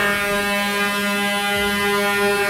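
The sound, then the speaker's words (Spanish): A truck horn holds one long, unbroken blast, a steady buzzing tone rich in harmonics that keeps the same pitch and loudness for the whole stretch with no break. “Uy, suena largo. Pitos que yo tengo aquí. Suena largo y tendido.”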